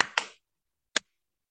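Hands clap a simple beat for therapy with special-needs children: two quick, sharp claps close together, then a pause and one more clap, all fairly faint and isolated.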